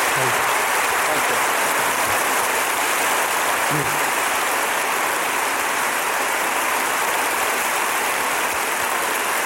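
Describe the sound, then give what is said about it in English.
Audience applause for a stage introduction, a dense, loud, unbroken wash of clapping that holds steady from start to finish. “a big hand for Richard Branson and Peter Gabriel”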